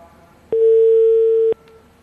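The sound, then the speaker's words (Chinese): A telephone ringback tone sounds on an unanswered call to a mobile phone: a single steady, mid-low electronic beep lasting about a second, alone over faint background hiss. “我们此刻呢是试图连线华夏银行信用卡中心工作人员陈森啊，这位工作人员，但是啊目前呢不接电话。我们再我们编辑再试着打一次好不好啊？”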